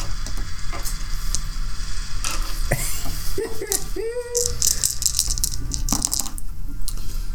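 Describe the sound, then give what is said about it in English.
A roof collapsing as a sound effect, with dense rattling and clattering debris that runs at a steady, loud level for about seven seconds and is dotted with sharp crackles and scraping bursts. “The roof collapses around you.”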